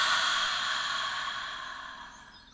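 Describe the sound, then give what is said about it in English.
A single long, deep breath, held during a guided relaxation exercise, is released as a quiet, breathy exhale that slowly fades over a couple of seconds with no voice over it. “let's take a nice deep breath in. Hold it and release.”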